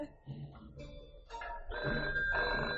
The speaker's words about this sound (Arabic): ما ترد على التليفون